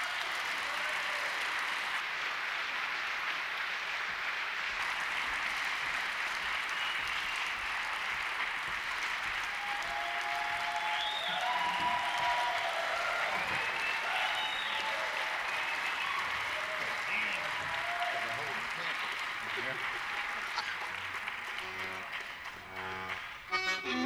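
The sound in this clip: Sustained audience applause greets a Cajun band taking the stage, a dense, even roar of clapping that carries on unbroken for over twenty seconds before thinning slightly at the end.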